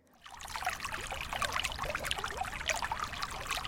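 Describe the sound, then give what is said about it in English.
Water trickling and bubbling in a continuous, fairly quiet flow that fades in at the start and then stays steady, with no voices. “This is the sound of water.”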